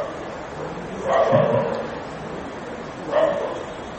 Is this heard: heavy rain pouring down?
no